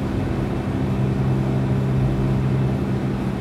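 Steady low engine and road drone from inside a car driving at 60 to 70 km/h on a foggy country road, a constant, even hum with no talk.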